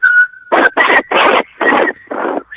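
A woman attempting to whistle a song: a thin, steady whistled tone runs underneath five loud, breathy bursts of noise that keep interrupting it.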